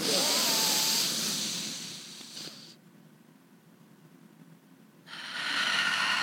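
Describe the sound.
A deep breath taken together during a guided card reading. A long, loud, airy rush of inhaling, then a stretch of near quiet while the breath is held, then a breathy rush again as air is let out.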